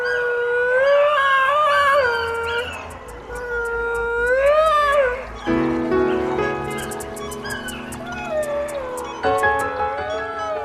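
A dog howls alone in long, loud, wavering tones that swoop up and down in pitch, breaking into several separate drawn-out howls.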